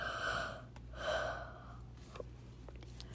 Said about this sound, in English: Bean took a deep breath